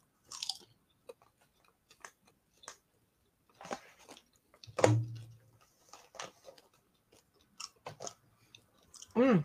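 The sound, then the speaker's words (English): Chewing blue cheese, with many soft, moist crunching and squishing bites in irregular bursts separated by quiet gaps, and a brief voiced murmur near the end. “I taste a blue cheese now.”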